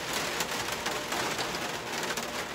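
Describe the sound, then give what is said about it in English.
Loud rain makes a dense, steady hiss that stays even and unbroken throughout, with no talk over it. “I really hope that you can still hear me because the rain is really fucking loud.”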